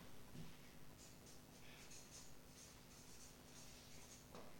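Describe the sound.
Someone writes on a board, a faint series of short scratchy strokes in an uneven, steady rhythm over a low, quiet background hum.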